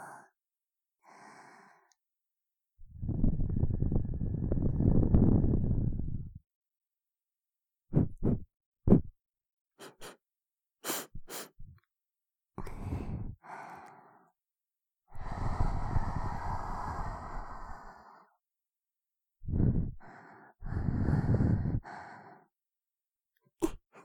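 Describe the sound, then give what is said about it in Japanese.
Breath blown straight onto a microphone: several long, loud breathy exhalations with short puffs, soft sniffs and silent gaps between them. No words are spoken. “ほーら、マイクに息かけちゃうぞ。”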